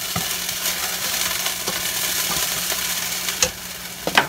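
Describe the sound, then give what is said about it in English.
Vegetables sizzle steadily as they sauté in pork drippings in a pan for gravy, with soft stirring scrapes throughout and a couple of sharp utensil clinks near the end. “and we're going to kind of saute these for 2 to 3 minutes. This is where we're going to build our gravy in this.”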